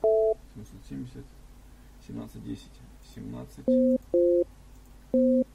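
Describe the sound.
Short repeated telephone tones are heard while a number is dialed. One tone comes at the very start, then three clipped beeps near the end are separated by pauses, with people talking in between.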